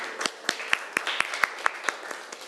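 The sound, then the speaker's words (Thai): A classroom of students claps for themselves after giving a correct answer in a lesson. A short, steady run of sharp, evenly spaced claps sounds alone, with no talk. “ปรบมือให้ตัวเองหน่อยค่ะ”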